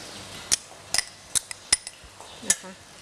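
A spoon clinks against a pot as pounded curry paste is stirred into soup to dissolve it. Several sharp, irregular metallic clinks rise over a quiet scraping background, with no talking.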